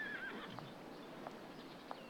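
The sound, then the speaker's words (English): A white horse in a corral lets out a short, faint neigh at the start, followed by a few soft, evenly spaced hoof clops. “They climb steps to a corral where a female groom uncovers a beautiful white horse.”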